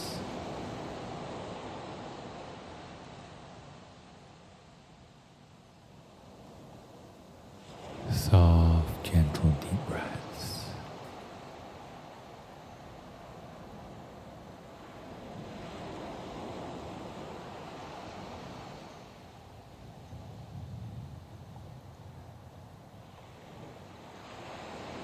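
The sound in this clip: Ocean surf rolls in as a steady, broad wash of hissing water, with one louder crashing burst early on before it settles back into a soft, continuous roar.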